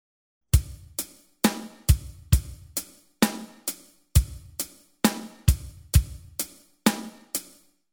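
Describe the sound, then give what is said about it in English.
Drum kit playing a basic eighth-note rock beat, steady hi-hat eighths with heavier kick and snare hits accenting the pattern, a crisp, even rhythm repeating alone throughout. “we are going to learn what we call the eighth note rock pattern. In its basic form, it sounds like this.”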